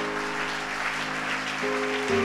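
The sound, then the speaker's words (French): An audience applauding during a church service: steady, dense clapping that swells slightly near the end, with a sustained tone running underneath. “Ah, mets-toi à acclamer Dieu ce matin.”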